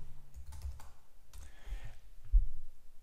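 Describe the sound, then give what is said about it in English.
Typing on a computer keyboard gives a few soft, irregular key clicks, faint and uneven in spacing, with one slightly louder tap near the end and no voice. “here we'll type row definition”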